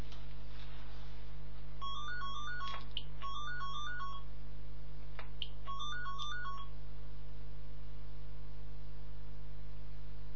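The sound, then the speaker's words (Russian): A phone ringtone for an incoming call plays a high, warbling melodic pattern in a few short bursts. It is fairly faint over a steady low electrical hum, and no one speaks. “кто-то звонит.”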